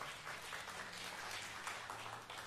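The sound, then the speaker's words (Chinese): A church audience claps during a service, giving a faint, continuous wash of many hands clapping with a low steady hum beneath. “阿们的拍手，把荣耀归给神。”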